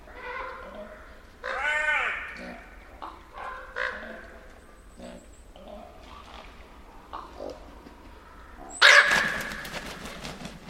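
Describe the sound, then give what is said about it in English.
Ravens giving snorting, grunting calls that resemble a boar's: many rough, harmonic croaks and snorts of varied length over a steady low rumble, with a louder, harsher burst near the end. “Those snorting noises in this recording might sound a little bit like boars. They're not. These are ravens.”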